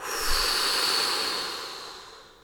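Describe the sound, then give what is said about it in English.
A big, deep breath blown out during a guided breathing exercise: a single soft, airy rush that swells and then slowly fades across a couple of seconds, with no talking. “I invite you to take a big, deep inhale and blow.”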